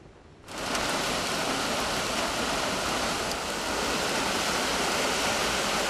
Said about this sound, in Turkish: Yağmur aniden bastırdı. Dakikalar içinde sokaklar göle döndü.